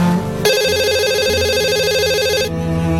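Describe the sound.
A mobile phone rings with a single electronic warbling trill lasting about two seconds, loud and bright over a low background hum, with no talking.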